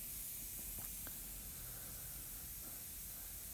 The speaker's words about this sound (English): I don't know if you can hear it in the background, but I've got chicken cooking under pressure for the puppies.